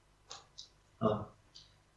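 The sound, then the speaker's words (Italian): Dice rolled in a tabletop game, with three dice thrown, give a few faint, brief clicks, and a short voice sound falls between them. “Si riprova. Tira. Tre dadi.”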